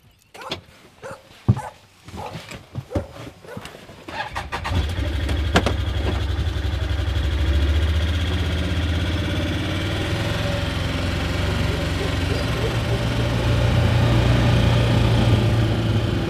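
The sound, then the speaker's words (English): A vehicle engine driving down a farm laneway past bulls: a few seconds of sharp clicks and clatter, then a loud, steady engine drone that holds to the end. “Now we are driving down the laneway past your bulls.”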